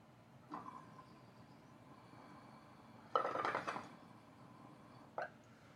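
Pulling on an empty glass bong makes faint bubbling gurgles: a short burst, then a longer rough bubbling stretch, then a brief final burst.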